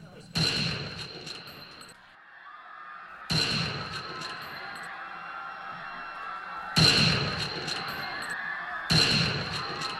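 Gunshots ring out in a dramatized shooting near the president's car: four loud, sharp blasts spaced unevenly across the scene, each trailed by a sustained, ringing echo that fades before the next.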